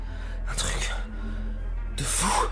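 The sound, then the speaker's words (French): A deep intake of breath before speaking: two loud, airy inhalations, one near the start and one at the end, over a steady low hum. “Attends, attends, une inspiration”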